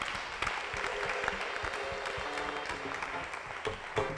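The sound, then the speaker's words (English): A church audience claps its hands in sustained, fairly faint applause, with many overlapping claps forming a steady, even patter throughout. “Clap your hands for Jesus.”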